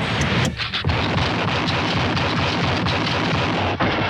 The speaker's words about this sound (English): Chuck Connors pretty good with that rifle, isn't he? He always hits what he aims at.